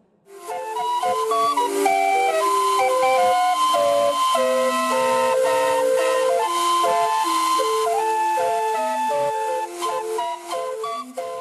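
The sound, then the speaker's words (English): A calliope, with steam blown through tuned whistles, plays a lively melody. Bright, shrill piping notes and chords sound continuously and loudly over an airy hiss. “And here's the sound a calliope makes.”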